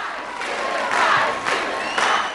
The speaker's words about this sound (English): The audience get to their feet for a spontaneous standing ovation.